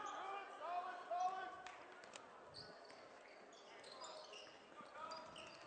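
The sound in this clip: A basketball being dribbled during a boys' high school game, the bounces faint and intermittent beneath steady voices and crowd noise.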